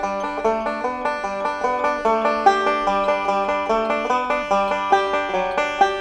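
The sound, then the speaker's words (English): A banjo plays a melody picked with the thumb, with a first-string note added between each melody note, making a steady, even stream of bright plucked notes with no voices. “So now I'm playing that whole melody, including those little fill-in notes, all with my thumb. Then I'm just going to add one more note to it. So in between every note, I'm going to play just the first string, and it'll come out and it'll sound like this.”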